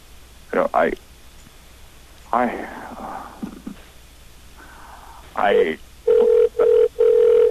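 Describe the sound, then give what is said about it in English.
A fake telephone ring: three short, steady, mid-pitched tone bursts in an even rhythm come at the end, after a few brief vocal sounds. “This was our fake, it was a fake ring, by the way, we weren't actually calling somebody.”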